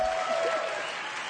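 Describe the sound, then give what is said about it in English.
Congregation hand clapping during a church anniversary celebration, a dense, steady patter lasting just over a second. “Let us give them a good hand clap offering when they say 19 years is not a joke.”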